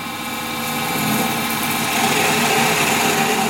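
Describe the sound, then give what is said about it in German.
A hand lathe turns a square wooden block as fine shavings come off. A continuous whirring drone gradually grows slightly louder and holds steady throughout. “Sofort lösen sich feine Späne vom Holz und fallen an Boden. Zentimeter für Zentimeter dreht er vom rotierenden Stück Holz ab.”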